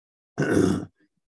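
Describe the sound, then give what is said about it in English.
A man clearing his throat once, a short, loud, rough rasping burst lasting about half a second, then silence. “hang on just a second. I got to do something here. This got to clear the throat.”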